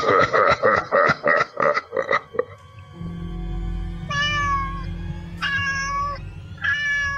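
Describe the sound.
Cat meowing sound effect: three drawn-out, tonal meows spaced apart over a low, steady droning background.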